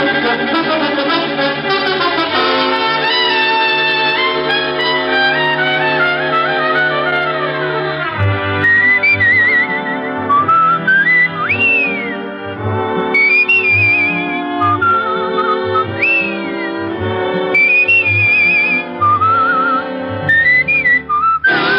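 A whistled theme tune for a detective drama: a melodic whistle with sliding, rising notes enters after a long sustained instrumental chord and carries on over a steady rhythmic musical backing, loud throughout with no talk.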